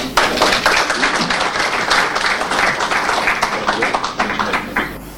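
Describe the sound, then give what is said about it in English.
An audience at the Classic Flyers museum forum meet applauds to welcome a speaker, with steady, dense clapping filling the whole stretch at an even, moderately loud level. “I'd just like to introduce Andrew now, and he's going to give us a bit of a talk about the museum here. So please give a hand for Andrew Gormlie.”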